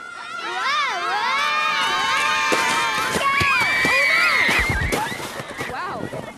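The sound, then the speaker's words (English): Children shout and cheer as they sled down a steep snowy hill at Pioneer Park on a cold November day, a steady loud clamour of excited high voices throughout. “Let's rejoin the boys as their sleds rocket down the steep hill at Pioneer Park.”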